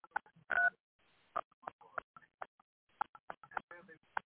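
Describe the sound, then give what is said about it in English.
Telephone keypad tones entering a PIN and then the pound key on a conference call line: a series of short, evenly loud beeps, with one longer tone near the start and quick presses spread across the rest. “Please enter your host PIN. When finished, press the pound key.”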